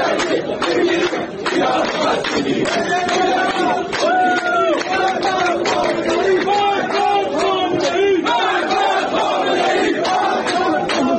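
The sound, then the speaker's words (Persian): Protesting workers in Asaluyeh chant slogans at a rally. A large crowd shouts in loud, rhythmic unison, and the dense roar of voices stays steady throughout. “صدای کارگران عسلویه در یکی از تجمعات اعتراضی.”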